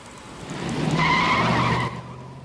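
Tires skid as a henchman's car drives off. The engine swells and a high tire squeal holds for about a second, then cuts off sharply, leaving a low engine hum.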